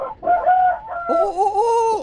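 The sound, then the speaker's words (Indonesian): A neighbour's rooster crows once, loud and alone, in a harsh, wavering call of about two seconds that rises into a strained, higher-pitched ending. “Itu ayam siapa itu?”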